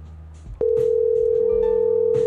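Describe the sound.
Telephone dial tone while placing a call: a brief click, then a steady, unbroken tone at constant pitch that holds loudly to the end.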